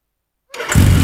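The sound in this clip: A new motorcycle engine starts after about half a second of silence and quickly catches into a loud, steady running rumble.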